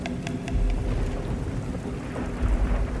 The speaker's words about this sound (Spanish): En la otra estancia, los truenos y relámpagos se sucedieron uno tras otro una vez más.